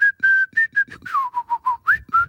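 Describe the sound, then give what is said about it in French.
A person whistles in imitation of a bird: a quick series of short, clear, high whistled notes, the early ones higher and the later ones a little lower, some with brief upward slides, with no talk. “Mais moi aussi, je peux siffler.”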